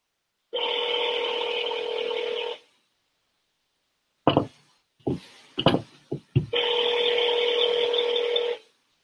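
Two long, steady electronic tones from a telephone voicemail system, each lasting about two seconds. A few sharp clicks and short bursts fall between them.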